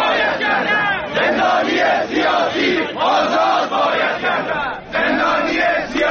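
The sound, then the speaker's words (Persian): A dense street protest crowd in Hamedan, Iran, shouts and chants loudly and continuously, many voices overlapping in rhythmic surges with a few brief dips in volume. “در همدان میدان بوعلی و بولوار خواجه رشید و خیابون پاستور جاهایی بود که ازش صدای تظاهرات ما داشتیم.”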